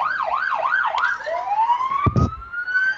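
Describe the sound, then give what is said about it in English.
A fire department Suburban's siren wails loudly, cycling quickly up and down in pitch several times before shifting into a long, slow rising sweep, with a short burst of noise partway through. “Let you hear that. Oh, the siren just went off.”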